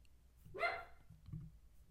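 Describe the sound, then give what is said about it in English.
A dog gives one short, sharp bark that rises abruptly out of a quiet background, with no talking over it. “as Murray just continues with the barking. Really apologize.”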